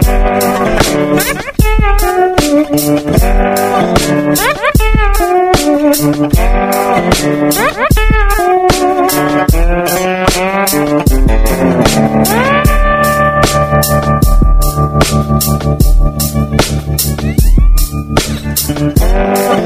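Acoustic guitar played lap style, picking a bluesy riff with gliding, sliding notes over a steady low bass pulse, loud and alone with no voices.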